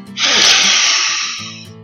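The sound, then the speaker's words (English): A single long, deep inhale hisses loudly, swelling quickly and then tapering off, with a brief voice just before and after it. “Let's take a deep breath.”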